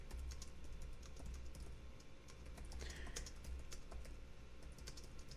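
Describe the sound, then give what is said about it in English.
Someone types a quick message on a computer keyboard, making a faint, continuous patter of light key clicks over a low background hiss. “And I'm having to type and do all this stuff at one thing.”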